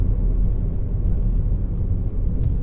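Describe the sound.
Steady low rumble of a car engine and road noise while driving, a dense, even drone with no voices.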